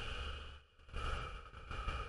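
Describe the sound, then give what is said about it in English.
A slow exhale through the mouth makes a soft, breathy rush of air that stays steady and quiet for about two seconds, with a brief dip partway through. “You breathe in for three seconds, hold it for two seconds, and let it go for seven seconds with an exhale like this.”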